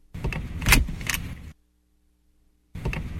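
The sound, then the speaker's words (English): A car seatbelt buckle rattles and clicks, recorded in a car: a loud metallic clatter with a few sharp clicks, then a moment of silence before the rattling starts again. “That's the click of a seatbelt.”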